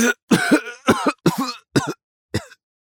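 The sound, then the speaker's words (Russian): A man coughing hard: a run of harsh, raspy coughs in about five bursts with short gaps between them, each burst rough and loud. The last one is brief and quieter, and then the coughing stops. “Не договорив, он закашлялся. Буквально через пару мгновений его недуг подхватили все остальные.”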